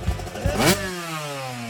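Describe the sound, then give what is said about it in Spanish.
A new AX400 motorcycle engine revs in a loud, brief burst, then its pitch slides steadily downward as the engine settles into a humming drone. “Gánate una moto AX400 nueva, nuevecita, de paquete.”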